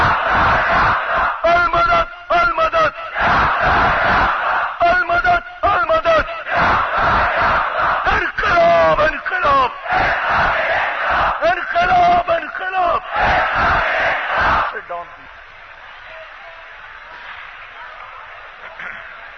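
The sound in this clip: Crowd chanting the religious slogan Nara-e-Takbir in loud, rhythmic shouted bursts for about fifteen seconds, then dropping to a quieter murmur.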